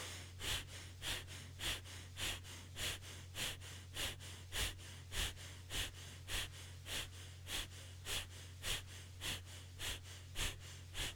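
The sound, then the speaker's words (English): Power breathing, rapid deep inhales and exhales: many quiet, evenly spaced breaths in a steady, brisk rhythm, each a soft airy whoosh, with no talking. “So for now, let's do a power breath, 20 inhales and exhales.”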